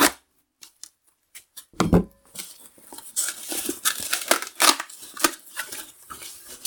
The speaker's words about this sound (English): the box is collapsible, and the box has been collapsed.